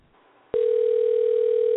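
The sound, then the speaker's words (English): A telephone dial tone begins abruptly after a moment of faint hiss and holds as a single steady, loud, unwavering pitch to the end. “And we're dialing”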